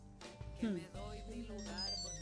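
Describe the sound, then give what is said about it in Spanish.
A mobile phone rings with a short, faint, melodic electronic ringtone of a few bright tones. “El celular, porque acaba de sonar.”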